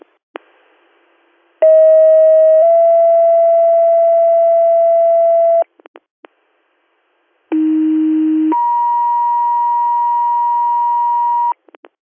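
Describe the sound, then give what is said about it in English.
Emergency ambulance dispatch pager alert tones in two sets. Each set is a short steady tone stepping into a longer held tone, the second set opening lower then jumping higher. The tones are loud and pure, separated by brief clicks and silence. “They have one more set of tones. I'm getting ready to tone them now.”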